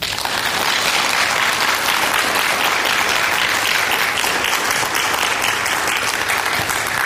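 An audience applauds to welcome a guest, an interdisciplinary artist, with dense, steady clapping that stays loud and even from start to finish.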